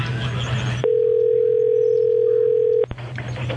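A telephone dial tone on a line while calling back: a steady, pure single-pitch tone holds for about two seconds, with noisy line sound before and after it.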